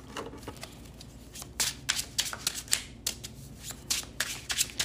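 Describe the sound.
A deck of cards shuffled by hand for a card reading: a quiet, crisp riffling of many quick flicks, sparse at first and then coming in denser bursts.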